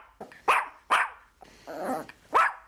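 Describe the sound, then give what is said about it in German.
A one-year-old Pinscher-Chihuahua mix dog barks at a hotel reception desk in a Palm Springs golf resort: three sharp, loud barks with a longer rough growl between the second and third. “dann wird der Hotelgast an der Rezeption auch von einem Vierbeiner begrüßt. Gerade ist es George, ein einjähriger Pinscher-Chihuahua-Mix.”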